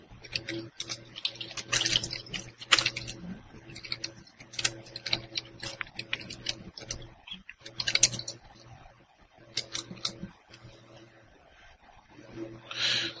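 A computer keyboard is typed on during a role-playing game session, with scattered bursts of quick, light key clicks broken by short pauses, fairly faint over a low steady hum.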